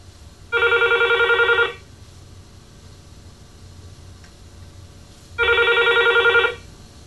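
An incoming phone call sets off a telephone ringing twice, each bright electronic ring lasting about a second. A long pause with faint background hiss separates the two rings.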